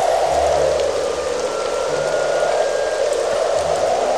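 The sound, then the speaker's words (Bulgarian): Heavy rain pours down as a dense, steady hiss of drops that stays loud and unbroken throughout, with no pauses and no voices. “Но една вечер задуха силен вятър. Заваля проливен дъжд.”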